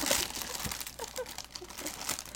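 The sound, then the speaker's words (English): Crinkling snack packaging is opened, producing a continuous crackling, rustling plastic sound with small irregular crunches throughout, fairly soft and without talk. “If you hear crinkling, that's us eating. I forgot to open these before. Okay, wait. I'm gonna open these. It's gonna be really loud.”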